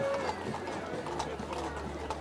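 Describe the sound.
Clip-clop of horses' hooves among a crowd at an outdoor public event, light rhythmic knocks heard faintly beneath people talking.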